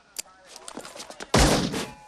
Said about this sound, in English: He fires a bullet into the tanker and white powder trickles out of the hole.